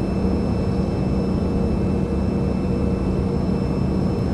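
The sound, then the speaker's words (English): Aircraft taking off in a flight video game: a loud, steady engine drone with a thin, constant high whine layered on top. There are no voices. “This takeoff and the recording, for whatever reason, I don't know, I don't think it's streamed.”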